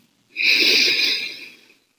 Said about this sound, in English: Take a deep breath in. You smell that? The earthy scent and humidity in the air?